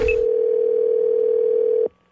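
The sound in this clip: Telephone dial tone before a prank call, a single steady, loud electronic hum holding one pitch for almost two seconds before cutting off abruptly into silence.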